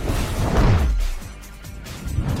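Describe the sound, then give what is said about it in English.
A huge rock formation explodes in a canyon: a deep, broad rumbling burst swells through the first second, then settles into a lower, quieter rumble that lifts slightly again near the end. “you're passing by a huge rock formation when suddenly it explodes.”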